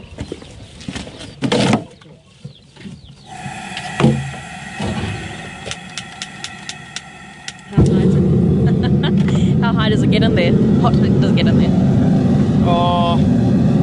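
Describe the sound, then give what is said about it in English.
Loud, steady roar of an LPG-powered gas forge and furnace cranked to full gas, bursting in abruptly partway through and holding constant to the end after quieter clatter and knocks. “LPG powered gas forge and furnace. And we just put our shoes in there and crank the gas bottle up and heat them up.”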